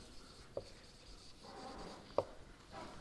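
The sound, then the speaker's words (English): Handwriting on a surface as a formula is written out: soft, scratchy strokes with two sharp taps of the pen, quiet and without talk. “Now, I'll write this as a fancy formula.”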